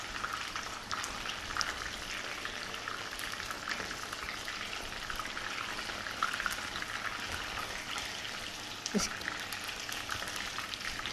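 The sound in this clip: Food fries in a pan with a continuous crackling sizzle and scattered sharp pops. The sound stays fairly faint and even throughout.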